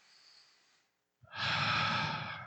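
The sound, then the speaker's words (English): A person takes a breath. A soft airy sound is followed by a brief silence, then a longer, louder, rushing breath that fades slightly at the end. “Want to take a breath with me?”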